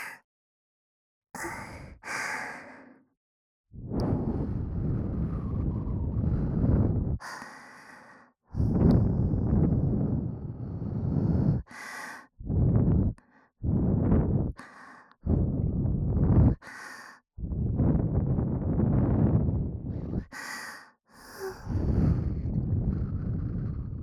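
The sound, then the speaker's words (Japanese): Strong breaths blown straight into the microphone, as if to clear away dirt. Many long gusts of breathy wind noise are separated by short silent pauses, with no talk. “もうちょっと強めにふうふうしても大丈夫ですか？”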